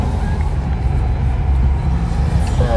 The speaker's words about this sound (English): At one point, this might have been a quieter road. I'm sure it was. Quieter country road. Well, I'm sure it was. It was made part of Highway 17, the Trans-Canadian Highway.